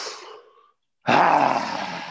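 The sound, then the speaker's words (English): A woman imitates a lion's roar while breathing out during a breathing exercise: a breathy inhale, a short silence, then a loud, rough, sustained roaring exhale. “let's do the lion breathing exercise where you breathe in and then roar as you're breathing out”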